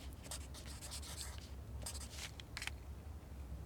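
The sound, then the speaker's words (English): A pen scratches across paper as someone writes a note, in quick, faint strokes that come in uneven clusters with short pauses, and no one talks. “Can you write that down before you go?”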